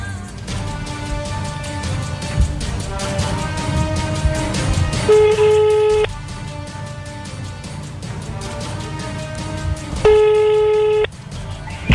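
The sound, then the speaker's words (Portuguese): A telephone rings out while someone calls the SAMU emergency service. Two long ringing tones, each about a second long, come about five seconds apart over continuous background sound. “E vamos tentar aqui ligar para o SAMU e ver o que está acontecendo.”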